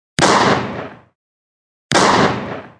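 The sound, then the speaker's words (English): Two shotgun blasts firing double-aught buckshot at an old wooden shack: two loud, sharp bangs, each trailing off over about a second, separated by a gap of silence. “Two shotgun blasts to my left signaled that Neil was firing.”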